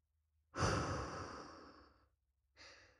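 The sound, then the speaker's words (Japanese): Deep breathing, in through the nose and out through the mouth: one long, airy exhale that fades slowly, then the start of another breath after a pause, fairly quiet and alone. “落ち着くまで深呼吸を、鼻から吸って、口から吐いて、”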